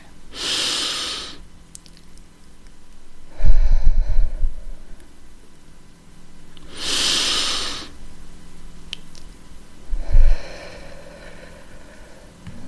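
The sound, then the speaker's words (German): Deep breathing in a guided exercise runs through two slow cycles. Each starts with a hissing inhale through the nose and ends with a heavier, lower exhale through the mouth, with quiet pauses between breaths. “Nochmal tief einatmen und wieder ausatmen.”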